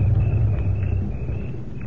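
A car arrives with a low, steady engine rumble that stays fairly loud and even throughout, with no talk over it.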